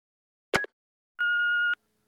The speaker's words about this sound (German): Anrufbeantworter. Nachricht 1.